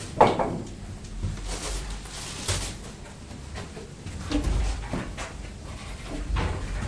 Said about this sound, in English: Put them back in the cupboard, that's right. Put them back nicely.